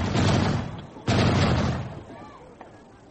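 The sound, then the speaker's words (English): Heavy gunfire as troops shoot into the air during an attack: two loud booming bursts about a second apart, each trailing off into a rolling, fading rumble. “They're shooting at the moon.”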